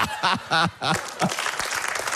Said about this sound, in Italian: Un applauso a Nicole.